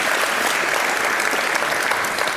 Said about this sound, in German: Dafür einen Applaus bitte.